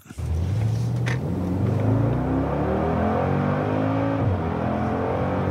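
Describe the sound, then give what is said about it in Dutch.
Engine of a 40-year-old Mercedes G-Class off-road vehicle accelerating, a loud steady drone whose pitch climbs, drops once at a gear change and climbs again, with no voices. “Meijnerd ging rijden in de jarige Job bij Mercedes, de G-klasse”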